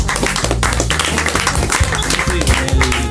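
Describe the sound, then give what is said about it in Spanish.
Applause breaks out as a participant is introduced: dense, continuous clapping at a fairly loud level for about three seconds, with voices mixed in. “Un aplauso para Afro.”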